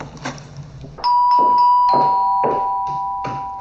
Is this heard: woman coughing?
no

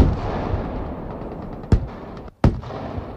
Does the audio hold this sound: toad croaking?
no

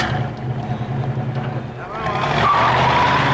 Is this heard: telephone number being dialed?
no

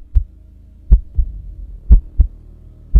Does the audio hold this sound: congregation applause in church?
no

